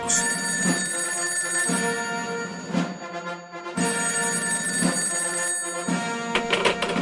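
A telephone bell rings for an incoming call in loud, bright bursts of repeated ringing separated by short breaks, with no talking.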